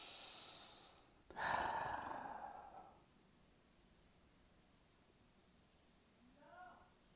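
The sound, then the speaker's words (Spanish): A deep breath is drawn in through the nose and let out through the mouth during a guided prayer. It is a single soft, airy rush that swells and then fades over about two seconds, leaving near silence. “Vamos a tomar un profundo aliento por la nariz y para afuera por la boca.”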